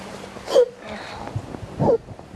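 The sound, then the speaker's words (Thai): A child sobbing as the crying subsides: two short, catching, whimpering breaths with a wavering tone and quiet between them. “ลูกสะอื้น”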